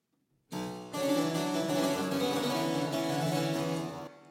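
Harpsichord played on the lower manual with two sets of strings coupled: plucked notes and chords sound louder and fuller, with a buzzy, brighter, overtone-rich ring that sustains and then stops abruptly.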